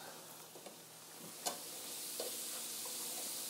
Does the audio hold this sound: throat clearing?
no